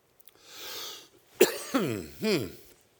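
Coughing from a throat tickled by breathing in: a soft breathy inhale, then three sharp coughs in quick succession, fairly faint and alone without talk.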